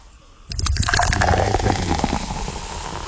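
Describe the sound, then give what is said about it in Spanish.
Ice-cold Coca-Cola poured into a glass filled to the top with ice, starting abruptly and continuing as a steady, loud, fizzing gush of liquid with no talk. “Hielo hasta arriba. Y la Coca-Cola bien fría. No cojo una Coca-Cola caliente. Y usted abre esa Coca-Cola. Y ya usted oye.”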